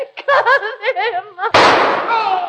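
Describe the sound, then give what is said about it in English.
A single sharp gunshot in a radio drama cracks out loudly right after a voice speaks, then its burst trails off briefly. “Holmes, she shot him.”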